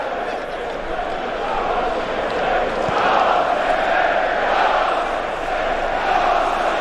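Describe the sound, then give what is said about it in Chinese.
Manchester City home fans roaring at a football match, a dense, sustained crowd roar that swells slightly midway and then holds steady to the end. “现场的主队球迷终于也忍不住了，曼城的主队球迷也爆发出来了更大的声浪，来给球队加油打气。”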